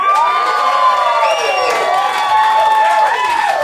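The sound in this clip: A live audience cheering and applauding for a comedy performer, with loud sustained whoops, shouts and clapping that rise and fall in waves throughout.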